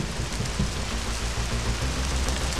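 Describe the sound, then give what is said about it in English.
Steady rain falls outdoors on a stuffed toy bunny, a dense continuous hiss with a low rumbling bed that stays even in loudness from start to finish. “Outside, a stuffed toy bunny lies in the rain.”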